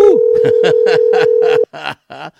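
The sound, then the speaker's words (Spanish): A steady, single-pitch telephone dial tone while a call is placed, with a voice speaking over it. The tone cuts off abruptly after about a second and a half, and the talking continues briefly. “Estamos buscando el contacto telefónico con Robinson Garrido. Ya, esperando que nos puedas atender, pues.”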